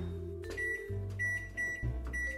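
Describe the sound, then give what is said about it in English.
A kitchen timer beeps while tempeh steams in a saucepan, giving a few high, short beeps over a steady low hum. “My timer has just rung, which means my tempeh is ready to be infused with flavor.”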